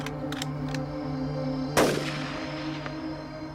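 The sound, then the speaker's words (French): A single sharp gunshot cracks out, loud and sudden, then decays quickly into a steady low hum that continues throughout. “On lui tira alors une balle à son tour.”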